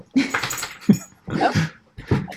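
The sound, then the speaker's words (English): A dog barks and whimpers in a few short, voiced bursts with pauses between them. The calls are fairly loud and stand alone, with no talk over them. “a dog appearance. I love that.”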